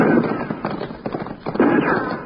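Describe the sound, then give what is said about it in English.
Gunshots fired from several directions at once, a scattered run of dull, muffled cracks and pops of uneven loudness, with narrow, band-limited sound. “Now those shots are coming from three directions. Both sides and straight ahead.”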